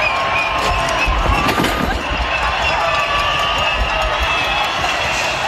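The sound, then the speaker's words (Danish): Crowd of protesters blocking the final stage of a cycling race in Madrid, heard as a dense, loud, steady roar of many voices and street noise that carries unbroken from start to finish. “Den sidste etape i Madrid blev jo faktisk aldrig kørt færdig, fordi demonstranter spærrede vejen. Vi kan høre her, hvordan det gik for sig.”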